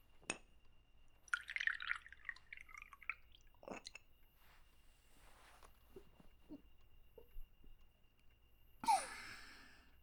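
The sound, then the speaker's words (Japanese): A drink poured into a small ochoko sake cup, starting with a faint glassy clink, then a short trickling pour, scattered soft drips and another light clink, all quiet and sparse. “お休み前の最後の一杯じゃ。おチョコはさっき使ったのでよいか。”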